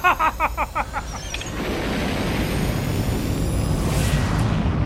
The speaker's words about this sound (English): The rocket ship is breaking away from the Earth at nearly the speed of light, right into the path of the new planet!